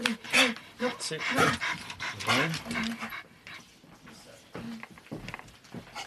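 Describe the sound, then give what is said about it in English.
A dog pants in quick, breathy, rhythmic bursts, louder at first and then softer, with a person talking over it. “I got the dog.”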